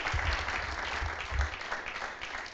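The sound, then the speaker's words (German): Faint, steady audience applause at a church gathering. The clapping is continuous throughout and has no voices over it. “You should give them a hand. Ihr solltet eigentlich klatschen.”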